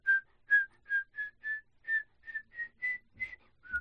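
A person whistles an imitation of the climbing music from the video game Chibi-Robo: about a dozen short, clear, bright notes in a steady bouncing rhythm, staying near one pitch, heard alone.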